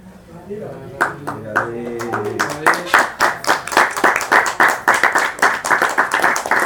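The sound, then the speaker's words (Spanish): Audience clapping at a devotional talk: scattered claps start under a speaking voice, then build into loud, steady, rhythmic applause from many hands. “No clapping, only evaluating. No, no clapping. No clapping, only no evaluating. No aplaudan, por favor, evalúen la pregunta.”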